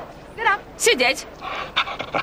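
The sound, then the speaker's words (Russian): A dog pants in quick, breathy bursts, mixed with a person's voice. “Неподалеку сидит девушка с собакой. Молодец. Какой хороший пес. Сидеть. Голос.”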